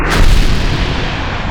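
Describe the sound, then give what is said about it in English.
Rocket roaring as it breaks through the sky, a loud, dense, continuous rumbling rush with heavy low end that holds steady and eases off slightly toward the end. “the rocket broke through. Tiny, shimmering particles flew up into the window's view, and the engines cut out.”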